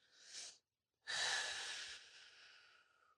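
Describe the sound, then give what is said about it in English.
Two deep breaths drawn into the low belly: a short airy inhale, a pause of silence, then a longer, louder breath that slowly fades out, breathy and hissing with no talk. “just kind of take a couple deep breaths into your low belly.”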